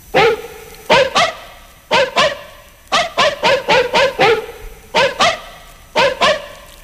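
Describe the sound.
A dog barks loudly and sharply many times, in quick pairs and short rapid bursts with brief gaps between them, and no talking.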